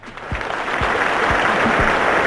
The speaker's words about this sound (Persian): امروز براتون یه دست بزنم واسه همه.